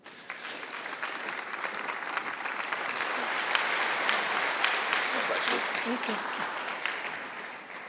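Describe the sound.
A church audience applauds to welcome a speaker with a sustained, dense wash of clapping that swells slightly midway and eases off toward the end.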